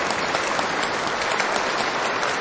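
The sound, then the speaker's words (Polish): Warm applause from a parish audience thanking the parish priest, a dense, steady clatter of many hands held at an even level throughout, with no voices. “Raz jeszcze gorące brawa i podziękowania za to, że dzisiaj możemy spotkać się w tej parafii.”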